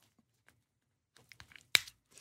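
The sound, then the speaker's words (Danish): A classic tin can being opened: faint clicks and small scrapes lead to one sharp metallic tearing snap as the lid gives way, followed by a brief trailing rasp. “Det er sådan en klassisk konservedåse, der glider fra her.”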